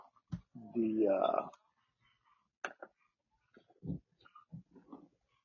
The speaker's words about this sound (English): Sorry, I heard one of our dogs upstairs going nuts. I'm trying to figure out the littlest one. She's the loudest one.